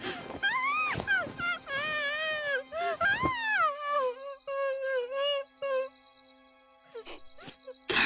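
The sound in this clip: A person crying, with a series of high, wavering wails and whimpers in uneven bursts, then steadier, quieter moaning that trails off near the end.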